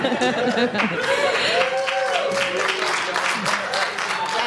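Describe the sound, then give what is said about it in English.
Applause and lively chatter from a live studio audience at Sigler Fest 2017, a continuous crowd wash of clapping and murmuring with voices talking over it throughout. “And as you can tell, we have a live studio audience today because we're at Sigler Fest 2017.”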